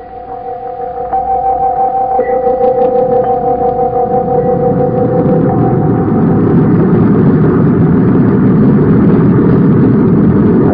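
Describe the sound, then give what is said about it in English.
Spaceship rocket engines blasting off: a droning hum with two sustained tones that swells after the first second into a loud, continuous rushing roar, holding steady to the end. “I'm issuing an all-planets alert for General Calmier, and then we're blasting off for Mars.”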